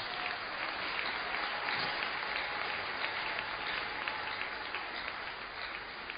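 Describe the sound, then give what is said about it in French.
A church audience applauds during a worship service, a steady, even wash of many hands clapping that holds at a constant, fairly soft level throughout. “Acclamons son nom.”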